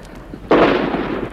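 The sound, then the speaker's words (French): Machine-gun fire aimed at a presidential palace as Vietcong forces surround it, arriving as a sudden loud burst halfway through and then holding as a dense, sustained roar that carries on to the end. “Ils tirent à la mitrailleuse sur le palais.”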